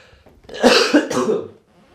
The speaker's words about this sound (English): the good thing is I can remove the microphone when I cough.